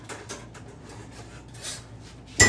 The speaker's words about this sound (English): First, grab his plate. Second, grab a cutting board and a knife.